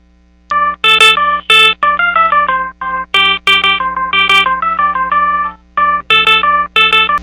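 A mobile phone ringtone for an incoming call from the mother plays a bright synthesized melody of quick, chiming notes. The phrases repeat loudly on their own, separated by short gaps.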